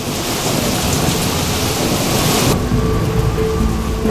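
Steady, loud rain pours down over rain-soaked bushes in a park, a dense, unbroken hiss that holds evenly from start to finish.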